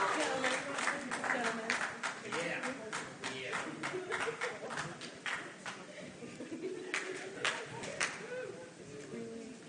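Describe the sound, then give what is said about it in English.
Hands clap along to a children's action song. Many sharp claps come in uneven rhythmic bursts, mixed with singing voices, at a moderately soft level. “Are we happy in the corner and you know it? Clap your hands.”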